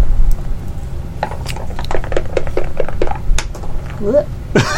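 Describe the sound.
Several dice rolling and clattering on a table during a tabletop game: a quick run of light, hard clicks under faint voices, with talking near the end.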